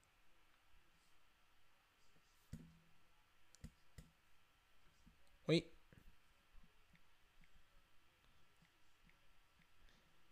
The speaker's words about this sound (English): Trying to play a song, but my, like, my freaking, like, ability to type shit in is, like, super delayed right now.